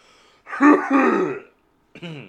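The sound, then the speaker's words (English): A cough brought on by smoking weed: a few raspy, throaty, voiced bursts that sound like harsh throat clearing, two close together and loud, then a shorter one after a brief pause. “weed cough, not a corona cough”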